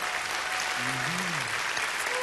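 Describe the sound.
Audience applause welcoming a speaker at a Savannah Christian gathering, a steady, dense wash of clapping that continues evenly throughout.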